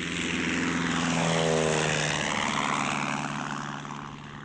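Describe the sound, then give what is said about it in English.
Propeller drone of a Lysander aircraft descending to land on grass: a loud, steady rumbling roar with a wavering whine that eases slightly toward the end. “The Lysander's wing almost touched the face of the cliff as they descended towards a patch of green. The wheels settled into grass, and Dobson breathed easily as the aircraft rolled to a stop.”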